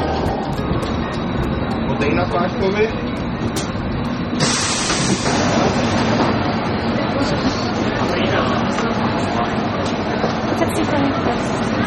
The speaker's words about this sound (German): Es geht weiter zur U-Bahn. Bei der U-Bahn muss die Assistentin den Rollstuhl zum Einsteigen anheben.